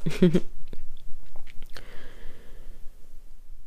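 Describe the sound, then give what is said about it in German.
A quick slurping sip of warm apple tea comes in a short loud burst at the start, followed by faint small mouth and cup sounds over quiet. “ich glaube, ich nehme auch gleich mal einen Schluck von meinem Apfeltee, wenn der schon so weit ist. Noch ein bisschen warm, aber lecker.”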